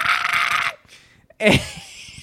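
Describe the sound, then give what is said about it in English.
A voice imitates a terrible, loud squealing from stage equipment during a band rehearsal: a harsh, piercing burst, a brief near-silence, then a second shrill cry that slides down in pitch and fades. “something happened during the rehearsal that caused something to make this terrible, loud, squealing sound. It wasn't this feedback. It was, like, worse than feedback.”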